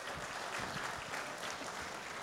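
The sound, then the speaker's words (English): Audience applause for a pastor being welcomed onto a church stage: dense, even clapping that holds at a steady level from start to finish, with no voices over it. “Yes. Give him a hand.”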